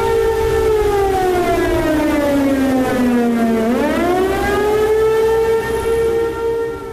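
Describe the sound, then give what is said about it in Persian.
A civil-defence air-raid siren warning of missile attack, set off falsely by a cyberattack. One loud, steady wail sweeps down in pitch for several seconds, then climbs back up, with strong harmonics and no talking. “حمله‌ای که آجیرهای حمله‌های موشکی در اورشلیم و ایلات را بی دلیل به صدا در آورد”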